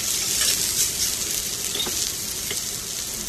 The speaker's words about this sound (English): And then immediately threw them on a cast iron griddle that was placed over the top of the gas burners on the stove.